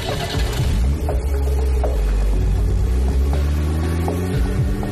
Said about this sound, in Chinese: 司机说完，一踩油门，便开足马力紧跟了上去。